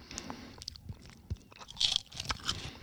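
Biting and chewing a thin, crispy Tao Kae Noi seaweed snack from Thailand: a run of soft, irregular crunches and crackles, fairly quiet, with one brighter crackle near the middle.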